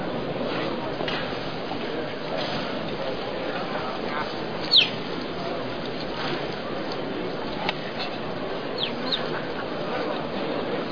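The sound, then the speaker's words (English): A baby bird that has fallen out of its nest chirps a few faint, brief high notes over a constant noisy background. “Fell out of his nest over by the plate shop. I'm going to look after him until he's big enough to fly.”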